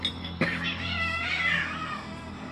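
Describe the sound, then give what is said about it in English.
Cats in a house yowl loudly, one drawn-out, wavering caterwaul after a sharp knock at the start. “I might pause it here and there because the cats get kind of loud.”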